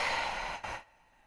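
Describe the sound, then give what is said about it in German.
A deep exhale: a long, breathy rush of air let out through the mouth, lasting under a second, then fading into near silence. “Atme tief ein und lass alles raus.”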